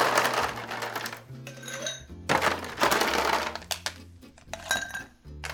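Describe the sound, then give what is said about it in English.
Ice cubes drop into mixing glasses for a chocolate-flavoured drink, loud clattering clinks arriving in a few bursts, each cluster of rattling ice followed by a brief quieter gap. “let's add some ice on your mixing glasses”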